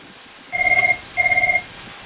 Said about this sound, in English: And someone's ringing. Sorry, that's my other phone ringing in the background.